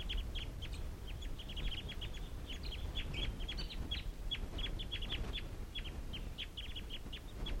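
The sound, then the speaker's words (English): Wild birds and decoy birds calling as a flock takes off: many short, high chirping calls repeat in irregular bursts throughout, moderately loud over a steady low rumble of background noise, with no talk. “And these are the wild birds calling. And it looks like they're going to take off.”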